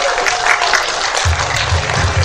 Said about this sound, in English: Round of applause for Keaton, all of our players today.